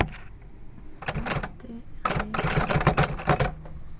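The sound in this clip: Keys struck hard on a stiff typewriter give clusters of sharp mechanical clacks in quick bursts, with a voice talking alongside.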